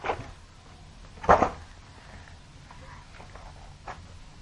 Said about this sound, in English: What happens here? The doors go open and shut. Open and shut.